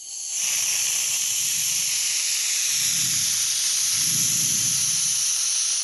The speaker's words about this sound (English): I was spraying my can of industrial strength, all-purpose duster onto the pop screen of my microphone.